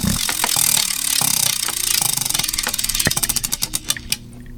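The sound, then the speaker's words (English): A prize wheel spun for NFL season predictions clatters through rapid ratcheting clicks that gradually slow into sharper, widely spaced ticks as it winds down, with no talking over it. “one more spin on this wheel of chingadera. Let's see where it goes.”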